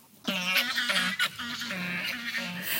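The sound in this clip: Geese flying overhead give many repeated nasal honks in a loose, uneven rhythm, each call sharp and clear, with some calls overlapping as the flock passes.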